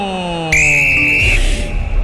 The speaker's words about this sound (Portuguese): O pontapé inicial desta segunda etapa será do Atlético. E apita o árbitro.